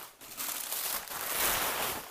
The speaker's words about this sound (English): take all this paper out so that I can use it for